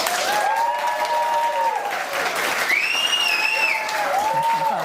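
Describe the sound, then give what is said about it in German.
Audience applause at a live television talk show as a guest reporter is welcomed: dense, steady clapping that stays loud and even throughout. “Wo gab es mehr Applaus, für den Fernsehpreis oder hier?”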